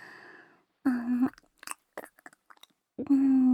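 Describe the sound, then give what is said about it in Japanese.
Close-up chewing of food: soft wet clicks and mouth smacks, framed by two short hummed vocal sounds in which a voice imitates chewing. “ほら、もう一回食べさせてあげまちゅね。もぐもぐ、”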